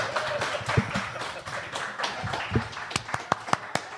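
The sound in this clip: Applause in a talk show studio: a steady patter of clapping, then several sharp, separate claps near the end.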